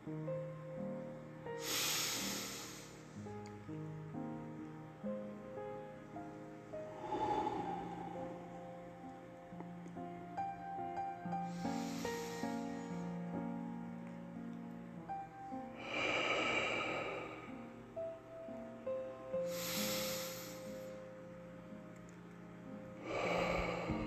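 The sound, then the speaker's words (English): Slow breaths drawn in through the nose during a guided breathing exercise, with several airy, hissing swells spaced a few seconds apart over soft, steady background music. “Breathe in through the nose again.”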